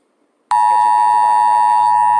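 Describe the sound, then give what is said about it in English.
A phone's Amber Alert emergency tone blares out, a loud, piercing, steady electronic tone rich in harmonics that starts abruptly and holds unbroken to the end. “I apologize for that noise. It was one of those Amber Alerts that were coming through. Forgot to shut off my phone.”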